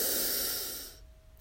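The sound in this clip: A deep breath drawn in through the nose: a loud, breathy rushing hiss that holds steady, then tapers off and fades within about a second, alone without talk.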